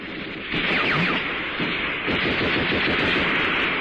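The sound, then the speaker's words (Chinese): Cannon fire during a wartime battle: a loud, dense, continuous barrage of blasts and rattling gunfire that roars without a break for the whole stretch. “大炮，大炮啊，”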